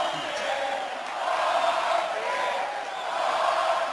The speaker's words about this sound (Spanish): Poncha pide el público en Valencia.